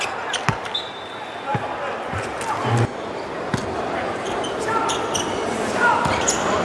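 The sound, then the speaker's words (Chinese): Basketball dribbling during a game: a few sharp, irregular ball bounces rise above a steady wash of crowd noise. “上线的运球八字”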